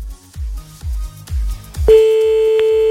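A telephone being dialed to place a call: low rhythmic thumps lead into a steady, loud, sustained line tone that holds to the end.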